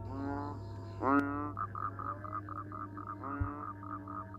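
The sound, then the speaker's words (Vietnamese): Frogs croak at night in the rural countryside, quiet and rasping, with a few buzzy calls and a run of rapid, evenly spaced pulses over a faint low hum. “Đằng xa kia, mơ mơ hồ hồ còn nghe cả tiếng ếch nhái nó cứ ì oạp, là đặc trưng của khung cảnh làng quê.”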